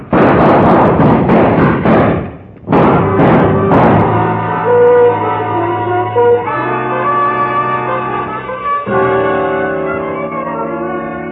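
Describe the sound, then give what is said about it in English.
Gunshots in a shootout: a rapid series of sharp, loud bangs, a brief gap, then a few more, followed by a sustained, dramatic orchestral music sting. “But his shots went wild, and the sergeant's mind did, too.”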